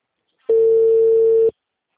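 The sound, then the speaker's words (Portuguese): A telephone tone sounds while a call is being placed: a single steady pure beep at a constant mid pitch lasts about one second, loud and alone between stretches of silence. “Tô ligando agora.”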